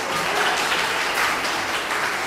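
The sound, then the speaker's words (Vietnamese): Audience applause during a Buddhist monk's dharma talk: steady, dense clapping from many hands that runs evenly through the whole clip at moderate loudness. “Sao vỗ tay cho đỡ buồn hú”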